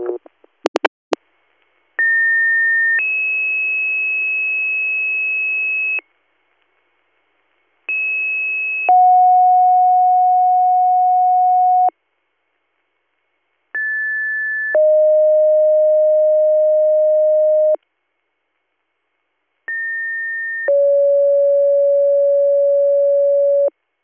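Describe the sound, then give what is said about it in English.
Emergency dispatch alert tones for an EMS department sound over radio: after a brief burst of clicks come four two-tone sequences, each a short higher tone followed by a longer steady lower tone, separated by silent gaps. “Department 18, Little Meadows EMS, disregard your tones.”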